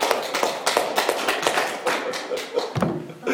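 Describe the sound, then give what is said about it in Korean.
Congregation clapping during a church sermon: a run of loud, sharp claps with uneven accents, ending with a dull thud near the close. “박수 해야 되는 거 아니에요?”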